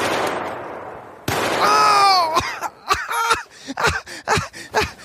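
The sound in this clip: A sharp gunshot cracks out in a virtual reality video game, followed by a man's drawn-out pained groan and short vocal outbursts.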